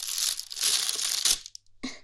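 A plastic bag crinkles and rustles in loud, hissing bursts, then goes briefly quiet before one last short crackle.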